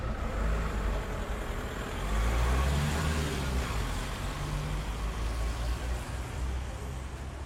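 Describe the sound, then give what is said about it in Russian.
A car drives away on wet asphalt. A broad, steady hiss of tyres on the wet road carries a low engine rumble that swells briefly, then settles back into the hiss. “Машина уехала по мокрому асфальту.”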